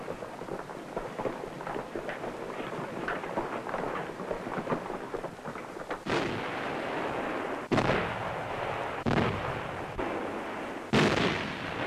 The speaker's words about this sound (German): Artillerie bricht feindlichen Widerstand auf dem Vormarsch am Jösensee entlang auf Hamar.